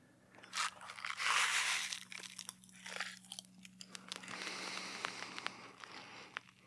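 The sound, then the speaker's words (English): Strawberry Pop Rocks popping candy crackles after a rustling crinkle, then many faint, irregular sharp pops and fizzy ticks over a low steady hum. “So here go the Pop Rocks. I'm going to use the strawberry. I feel like that's the closest for cherry cola.”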